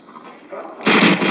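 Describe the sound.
Gunfire in an early-1980s action film scene, as armed lawmen open fire on a man who has been ordered to surrender. A quieter lead-in gives way to a sudden, loud, sustained burst of shots.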